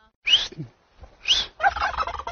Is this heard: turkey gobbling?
yes